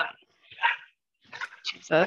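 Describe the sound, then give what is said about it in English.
A pet dog growls and gives a few short bark-like bursts, with a person talking over it. “sorry, my dog's like growling.”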